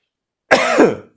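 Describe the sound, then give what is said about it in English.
A single rough cough or throat-clear, loud and alone, lasting about half a second with a raspy voiced tone. “One of you guys is going to have to take over because I need to cough.”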